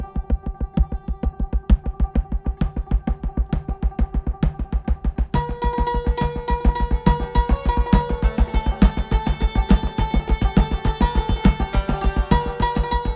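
A santur rings with rapid, steady hammered strikes in an even driving rhythm. Its bright metallic strings resonate, and the texture thickens into fuller, denser tremolo figures partway through.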